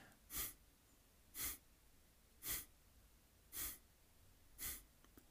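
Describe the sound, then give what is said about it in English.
Breath of fire yoga breathing: five forceful, huffing exhales in an even rhythm about a second apart, each a short rush of air, with quiet passive inhales between. “like a slow, steady, rhythmic breath. Forceful exhale, passive inhale. The belly pumps in when you exhale.”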